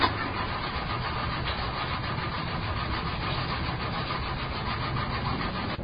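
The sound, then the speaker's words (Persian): A car engine is cranked but fails to start, a continuous whirring grind that holds steady throughout. The car is said to have a clutch plate fault. “داداش از صفحه کلاجشه، متوجه ای؟ آقا استارت نمیخوره.”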